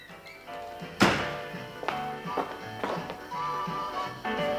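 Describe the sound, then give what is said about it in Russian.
A door opens with one sharp, loud thunk, followed by a few softer bumps, all over sustained tonal music. “Открывайтесь двери, входи”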